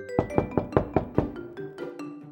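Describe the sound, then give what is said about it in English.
A man knocking on a door, about six sharp, evenly spaced knocks in quick succession, then a few softer taps, with gentle tonal music underneath. “A man knocks on the door. Nobody answers. The man knocks on the door again.”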